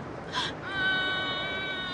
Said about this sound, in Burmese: ဘာလို့ငိုနေရလဲ